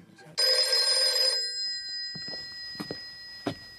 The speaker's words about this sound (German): Es war 2 Uhr nachts und wieder ging das Telefon.